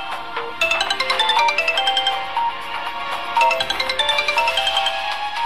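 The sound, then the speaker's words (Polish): Several mobile phones ring at once around popcorn kernels during an experiment. Their bright electronic ringtone melodies overlap in a steady, fairly loud chorus, and a fresh burst of ringing joins partway through. “Pierwsza dzwoni. Druga dzwoni. Trzecia.”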